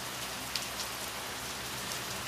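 Steady rain falling outside, a soft, continuous patter of drops with no breaks and no voices.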